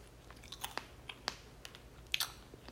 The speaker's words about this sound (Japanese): パリパリ。うんうん。あ、パリパリのキャンディー層と、もちもちのソフトキャンディー入ってんだね。